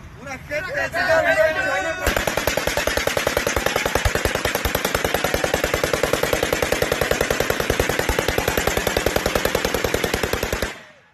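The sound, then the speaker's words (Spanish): Rapid automatic gunfire from masked cartel gunmen shooting into the air, a long, steady, evenly spaced stream of many loud shots lasting about nine seconds, preceded by shouting voices. “lanzan vivas al jefe de ese grupo criminal, Nemesio Ceguera, alias El Mencho, y disparan al aire.”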